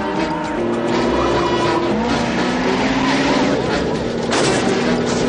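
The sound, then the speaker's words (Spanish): Cars roaring and swerving during a police chase on a motorway in a 1990 action film, with stolen cars dropped from a moving truck's ramp; loud continuous engine noise with squealing tires throughout. “Con agilidad, el policía evita la colisión, pero el coche lanzado provoca el caos en la autopista por la que circulan.”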